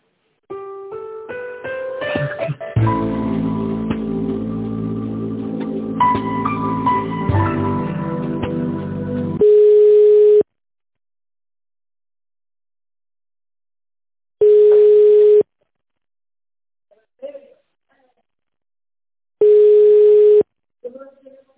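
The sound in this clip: Telephone line tones during a call being dialled: three long, steady beeps of the same mid pitch, each about a second, separated by silent gaps, after a busy opening stretch with voices.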